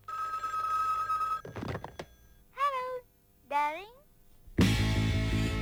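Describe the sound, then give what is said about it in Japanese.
A telephone bell rings steadily at the start of a song, followed by a couple of short clatters and two swooping vocal cries before loud music bursts in. “今びっくりしておうちの電話出た人いるかもしれない”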